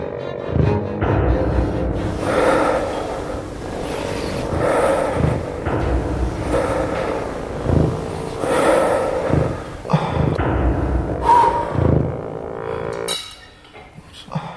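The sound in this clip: Forceful, rhythmic breathing from a child doing exercises in a gym: many breaths in and out, each a short airy burst. Faint clinks of equipment sit under the breaths.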